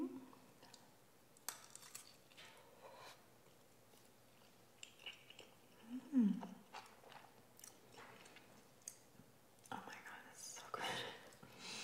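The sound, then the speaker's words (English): Someone eats pasta mixed with roasted broccoli, making soft, faint crunchy chewing and biting sounds in scattered bursts. Quiet whispering is heard alongside. “We're mixing in roasted broccoli for contrasting texture and nutty sweet flavor. Let's taste it and see.”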